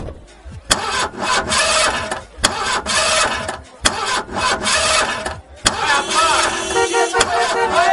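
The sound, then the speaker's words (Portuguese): A sports car engine of nearly 300 horsepower starts and roars, with loud bursts of revving broken by several sharp cuts, and the engine settles into a strong running note toward the end. “300 cavalos. Vai de 0 a 100 em menos de 6 segundos. Aí eu não acredito, você tem uma igualzinha do Magnum. Ai meu Deus, eu sempre quis andar numa máquina dessas.”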